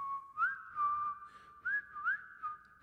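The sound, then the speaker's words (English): A man whistles a tune while walking out of a room. The whistling is continuous, clear and fairly high, moving through several phrases with quick upward slides between held notes. “He then turns and walks towards us, leaving the room, whistling the entire time.”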